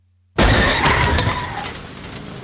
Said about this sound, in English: Hey, that car just ran a red light and hit that truck.